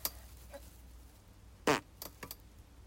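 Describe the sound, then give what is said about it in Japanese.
A single short, low fart bursts out midway through an otherwise quiet stretch, followed by a few faint small noises. “おなら出ます。出します。”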